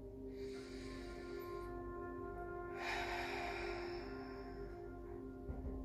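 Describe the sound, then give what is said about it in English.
Deep breath taken at the end of a guided meditation: a soft inhale and then a longer, fuller exhale, faint over a steady, sustained tonal drone. “Let's take one last deep breath together.”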